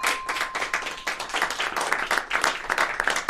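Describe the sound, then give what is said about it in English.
Studio audience applause during a Super Bowl trivia quiz show: dense, steady clapping from many hands that fills the whole stretch at an even, lively level. “Standing ovation wasn't necessary. That was very nice by the studio audience. They're very helpful with that.”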